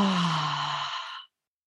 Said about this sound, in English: Breathe in, breathe out. And if you can audibly, that's always the best. Breathe in, exhale.